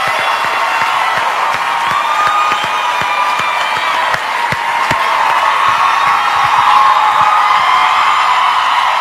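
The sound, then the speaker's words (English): A studio audience at a live singing-competition finale cheering and applauding, a loud, steady wash of clapping, whoops and yells that holds for about nine seconds. “Incredible response from the studio audience.”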